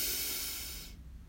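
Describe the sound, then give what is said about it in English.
A deep breath drawn in through the nose during a guided breathing exercise, heard as a soft, steady, airy hiss that fades out after about a second, with no talk. “Breathe in through our nose, hold for a moment, and then exhale through our mouth with a loud sigh. So let's breathe in”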